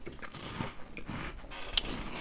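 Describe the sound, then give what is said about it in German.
Chocolate sandwich biscuits being bitten and chewed, faint, irregular crunches and crackles, with one sharper snap near the end. “Wir essen nebenbei Prinzenrolle. Das stört bestimmt keinen.”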